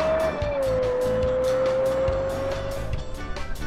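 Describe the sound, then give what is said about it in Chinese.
A production car's 4.8-litre naturally aspirated V10 engine sounds on a racing circuit. It produces a loud, sharp, high-pitched wail that holds a steady tone after a slight early dip. “它的四点八升 V 十自然吸气的发动机可以输出五百六十匹马力。而这台车的声浪也十分清脆，据聪哥的经验，这可能是量产车中最接近 F1 声浪的车了。”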